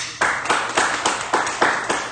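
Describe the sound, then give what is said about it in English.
A church audience claps together in a steady, even rhythm, with about eight loud, sharp beats and no talk over them. “Would you mind clapping for that?”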